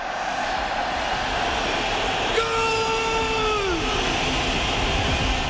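A train horn sound effect serves as the jingle opening a football results segment. A sustained, chord-like horn blast enters partway through over a constant rumble of a moving train, then slides down in pitch as it fades out.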